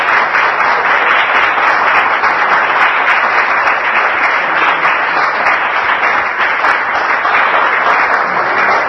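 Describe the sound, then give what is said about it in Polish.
Warm applause welcomes a pastor to a church gathering, a dense, loud wash of many hands clapping that holds steady and unbroken for the whole clip. “Chciałbym, abyśmy zaprosili pastor Denis z oklaskiem gorącym.”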